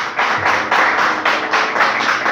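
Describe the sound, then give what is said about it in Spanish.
A church audience claps for the Lord during a worship service, a steady rhythmic beat of many hands that keeps going without a break. “Dale un aplauso al Señor si quieres estar en este lugar.”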